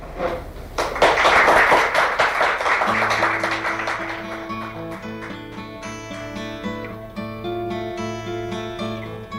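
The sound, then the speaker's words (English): Audience applause welcomes Joni Mitchell back, a dense patter of clapping that swells quickly and then fades as instrumental music begins and carries on alone. “Let's have a warm welcome back now for Joni Mitchell.”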